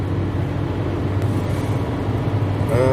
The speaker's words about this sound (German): Sorry, ich fahre, deshalb klingt das gerade hier so ein bisschen abgehackt.